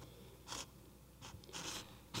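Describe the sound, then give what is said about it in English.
Paper knocks against the microphone bar on top of a courtroom podium, making a few faint, brief scratchy bursts over a low hiss. “That bar is a microphone at the top of that podium. So every time that paper hits it, it's just going to make a really loud noise.”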